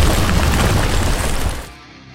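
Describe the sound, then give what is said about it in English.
Ground erupting from a magical seismic attack in a fantasy battle: a loud, dense, rumbling roar that holds steady for about a second and a half, then fades away quickly. “As soon as the monster shakes off the electric attack, it is thrown into the air as the ground below its feet erupts from a seismic attack from the Druid.”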